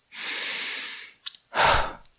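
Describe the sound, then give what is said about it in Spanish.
Deliberate, slow breathing in and out: a long, steady, airy breath, then a couple of tiny clicks, then a shorter, fuller and stronger breath. Both breaths are clear, with no talk over them. “Decimos inspirar. Inspirar. Inspirar, expirar.”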